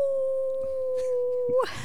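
A person imitates a wolf howl with a single long, steady, moderately loud tone that holds nearly level pitch for over a second and a half, then breaks off with a short drop at the end.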